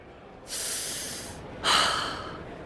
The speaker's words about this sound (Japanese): ほんなら、みんなで深呼吸や。